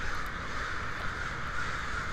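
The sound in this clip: Crows cawing, a few faint, harsh calls rising over a steady background hiss.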